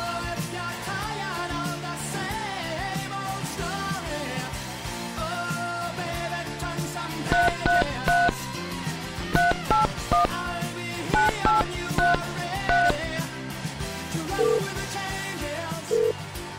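Telephone keypad tones beep in quick runs of short, steady-pitched notes over upbeat background music. A couple of single beeps follow near the end.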